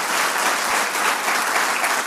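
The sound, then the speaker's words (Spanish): Applause from a church audience, a steady, dense patter of many hands clapping that holds at an even, fairly loud level for the whole stretch, with no talk over it. “Dale ese aplauso a la palabra de Dios.”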